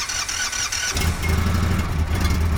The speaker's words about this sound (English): The last stop on the assembly line is the road simulator where the Indians reach cruising speed.